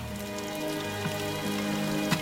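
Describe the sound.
Rain falling as a steady, even hiss with no distinct individual drops, joined by a constant low droning hum throughout.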